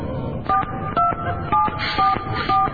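Touch-tone telephone keypad beeps as a number is dialed to call someone: five short dialing tones at an even, regular pace, with no voices.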